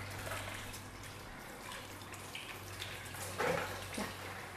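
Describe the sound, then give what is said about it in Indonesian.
Water runs from a tap for hand washing. It makes a soft, steady hiss with a few brief splashy bursts near the end. “Itu mau cuci tangan. Aku dong. Bawa aku dong cuci tangan.”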